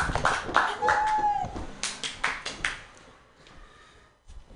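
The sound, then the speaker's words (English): Applause and brief cheering from a comedy club audience greeting a comedian: a dense burst of clapping with a few whoops at the start, thinning quickly into scattered individual claps that fade out. “Put your hands together for Greg Gettle. Yay!”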